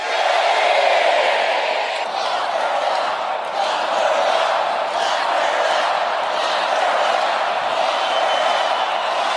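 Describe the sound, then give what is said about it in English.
At a political rally, the audience chants "lock her up" and "guilty," a loud, sustained roar of massed voices and cheering that swells early, then carries on steadily for about nine seconds. “The audience was chanting, lock her up, lock her up, and guilty.”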